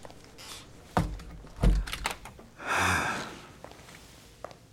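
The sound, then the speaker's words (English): A door being shut gives a couple of dull wooden thuds and a brief rushing swish, then a faint click near the end. “Do you mind closing the door? Sure.”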